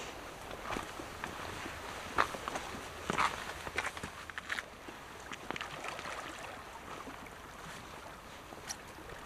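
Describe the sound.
Footsteps walk along a rocky lakeshore, a steady run of uneven crunching steps with a few louder scuffs over a soft, constant outdoor hiss.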